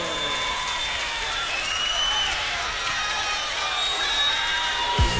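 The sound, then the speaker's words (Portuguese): Audience applauding and cheering as a performer is welcomed on stage: a dense, steady wash of clapping mixed with shouts and whistles throughout, closing with a brief thump. “Bora aplaudir!”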